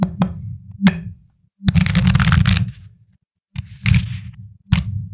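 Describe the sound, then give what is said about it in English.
Tarot cards being shuffled and drawn: a few sharp taps of card handling, then a longer riffling shuffle, followed by more brief bursts of cards being handled, with no voices. “But first, let's pull our tarot card.”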